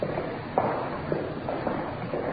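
Footsteps climbing stairs inside a hospital in Los Angeles, a few dull, irregularly spaced thuds standing slightly above a steady background hum, moderately faint and without talk.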